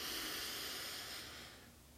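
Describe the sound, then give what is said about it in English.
A full, deep inhale through the nose as a cleansing breath in a guided breathing exercise. The soft breathy hiss is steady, then fades toward the end. “inhale when you're ready through your nose fully”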